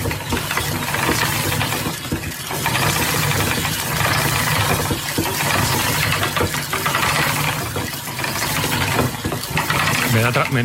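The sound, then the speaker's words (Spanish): A spinning wheel turns with a steady whirring, clattering mechanical drone and a rhythmic ratchet-like ticking, continuous and even in loudness for the whole stretch. “la rueca está trabajando, está sonando y tiene un sonido que sonaría así.”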